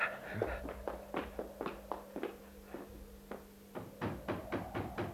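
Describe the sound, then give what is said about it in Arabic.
Knocking on the door of a private house: a long series of sharp raps in uneven clusters, quiet overall, with a faint steady hum beneath. “ما رأيك في أن نذهب إلى ذلك المدخل ونطرق بعض الأبواب؟ سأحاول أنا مع هذا المنزل الخاص، لعل الحظ يخدمني.”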